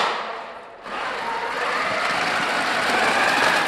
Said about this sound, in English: That's the sound of robots spinning, turning, throwing balls, and playing games.